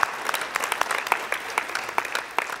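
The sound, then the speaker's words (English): Applause from a weekend study gathering at Stone Canyon, welcoming those who join online. Many quick hand claps blend into a steady, moderately loud patter with sharper claps standing out throughout. “So if you would, put your hands together, welcome them into our time of study here today.”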